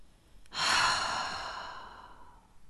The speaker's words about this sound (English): Now breathe out slowly through your mouth or your nose if it feels more natural.